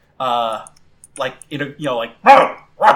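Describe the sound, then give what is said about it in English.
A person's voice imitates the barking of a large, fierce dog-like creature from a monster-battling game, with a series of several short, gruff, throaty barks, the later ones louder and rougher. “Arcanine barks,”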